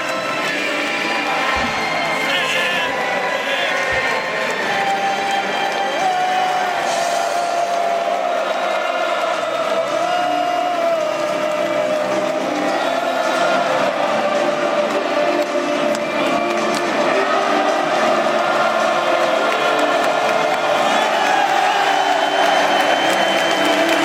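Audience applause and cheering for a football club, a dense, loud wash of clapping and crowd noise that stays steady and unbroken throughout.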